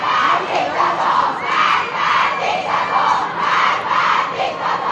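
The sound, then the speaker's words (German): A crowd of young people chants anti-government slogans at night at a university in Tehran: loud, massed voices shouting in a steady, repeating rhythm that rises and falls in regular waves. “Tod dem Diktator, rufen sie, diese mutigen jungen Menschen an der Al-Sara-Universität in Teheran ist das gewesen, gestern Nacht.”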